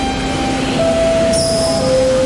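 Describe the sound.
A train pulling into a station: a continuous loud rumble overlaid with steady high whining tones that step to new pitches as it slows.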